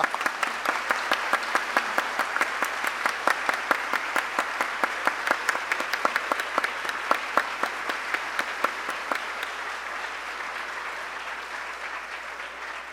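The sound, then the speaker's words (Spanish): An audience gives Martín a long ovation, with many sharp claps in a quick, regular rhythm that keep a steady beat and fade slightly toward the end. “No es culpa mía, Ricardo, que el público ovacione durante 3 minutos a Martín.”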